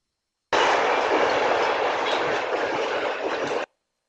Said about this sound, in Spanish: Aquí el mismo tren, un poquito más de calidad más baja, mono, pero ahora pesa solo 3 megas